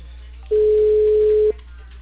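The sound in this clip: A single steady ringback tone sounds during an unanswered telephone call, lasting about one second at an even mid pitch, alone over a low background hum.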